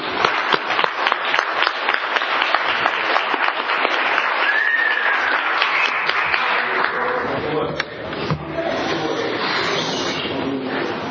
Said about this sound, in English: And so if you would please join me in giving Brian a warm Tulare County welcome.